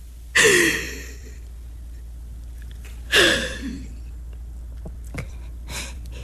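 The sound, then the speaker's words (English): Deep breaths being taken, two loud sharp breathy inhalations a few seconds apart, each tailing off, with faint small breathing sounds afterward and no talk. “Just breathe. Take a deep breath”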